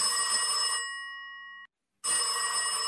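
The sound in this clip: A single telephone ring for a radio phone-in call: a clear tonal ring cuts in as louder background sound drops away, fades steadily, then stops in a short silence before the background returns.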